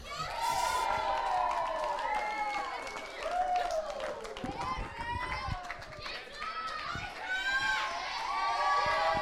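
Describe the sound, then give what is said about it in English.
An audience at a church event applauds and cheers to welcome a speaker onto the stage, a steady wash of clapping threaded with many whoops and high shouts throughout. “So, can I please get a warm welcome for Hannah?”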